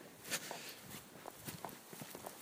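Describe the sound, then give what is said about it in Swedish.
Footsteps in sturdy boots tread a wet forest path, each step a faint, soft, squelching crunch in a steady walking rhythm. “Lite blött i markerna men jag har ganska rejäla kängor på mig. Så för mig är det inga problem att ta mig fram här.”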